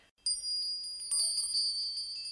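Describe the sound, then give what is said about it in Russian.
Valdai bells, small metal bells kept as a travel souvenir, jingle with bright, high, sustained ringing tones that are struck again partway through, faint and alone without voices. “Валдайские колокольцы. Да-да, колокольцы.”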